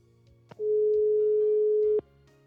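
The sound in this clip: A telephone tone from a call that will not go through: one steady mid-pitched tone, about a second and a half long, starts and ends with a click and is heard alone.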